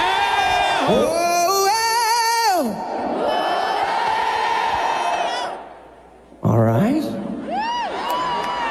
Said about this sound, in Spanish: ¿Quieres escuchar al público esta noche?